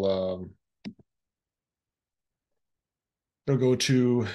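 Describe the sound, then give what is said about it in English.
Two quick, sharp mouse clicks on a publish button, landing in a quiet gap between stretches of a person talking. “Okay, so then once you click publish,”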